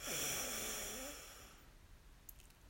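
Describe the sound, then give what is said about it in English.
One deep, slow breath during a guided breathing exercise, heard as a soft, airy rush that fades away after about a second and a half, leaving near silence; quiet throughout. “And our final breath in together, breathe in”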